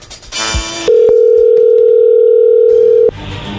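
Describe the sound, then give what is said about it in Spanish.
A steady telephone line tone plays while a call is being placed, one unbroken, level hum lasting about two seconds, with softer noises before and after it. “Así que ahí se está marcando, no haga ruido.”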